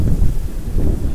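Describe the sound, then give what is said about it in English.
Strong wind gusts along a street, battering the microphone with a loud, continuous low roar and rumble that swells and dips in rough surges, with no voices. “Oh my god, this wind.”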